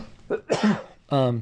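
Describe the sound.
A throat-clearing cough from a tickle in the throat: a few short, rough bursts, the last one longer and more voiced.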